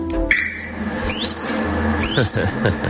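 Thin, rising squeaky calls from a newly hatched, downy red kite chick weighing 40 grams in a captive breeding programme. A few short upward-sweeping cries stand out over steady low background noise.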